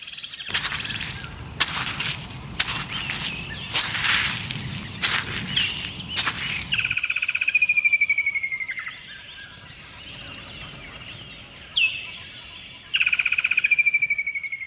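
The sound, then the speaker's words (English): Forest walk with birds: a run of sharp crackling and snapping sounds over a low rumble, then clear, high, whistled bird calls sweeping downward, repeated a few times. “Nature Valley invites you to take a minute to re-energize with the sounds of nature, starting with this walk through the forest.”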